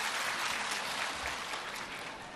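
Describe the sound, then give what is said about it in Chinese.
A gathering at a Buddhist dharma event applauds to welcome a speaker. The clapping is an even, continuous wash, fairly faint, lasting a couple of seconds. “让我们掌声欢迎。”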